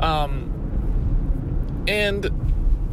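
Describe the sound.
A car is driving, heard from inside, as a steady low road rumble and engine drone. A person talks briefly over it at the start and again near the middle.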